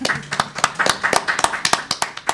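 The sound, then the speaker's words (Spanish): Scattered hand claps ring out in an auditorium at a political economy congress. The claps are sharp, irregular and fairly sparse, like only a handful of people clapping, and they continue across the whole moment. “Bueno, aplausos.”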